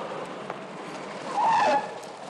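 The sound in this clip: Car tires skid briefly on a highway as the car pulls away, a squealing burst about a second long rising above steady road noise.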